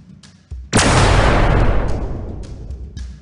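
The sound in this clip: Blaster fire sound effect from a science-fiction battle in a courtyard, heard as one loud, sharp blast that decays over about two and a half seconds. A softer hit comes just before it.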